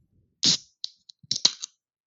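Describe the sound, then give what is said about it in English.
A can of Vernors ginger ale cracks open with a sharp, hissing snap. A few short clicks and fizzy bursts follow before the sound dies away. “That was an excellent can crack.”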